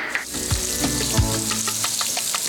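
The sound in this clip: Butter sizzling and softening in a hot pan, a steady, fairly faint crackling fry with scattered pops throughout and no voices.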